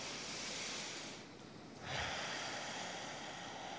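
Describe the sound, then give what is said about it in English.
A deep breath in is drawn during a guided partner exercise. It is a soft, breathy, airy inhale, faint and alone, swelling briefly before settling into a hushed hiss. “Take a deep breath in.”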